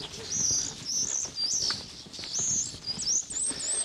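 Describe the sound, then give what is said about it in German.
Courting birds on a rooftop in spring give repeated high, thin chirps, fairly faint over a soft rustling background. “Guck mal, wie der da oben balzt auf dem Dach und der da oben auf dem Dach, der balzt genauso. So mit Flügeln und Schlagen und geht jetzt hier richtig ab.”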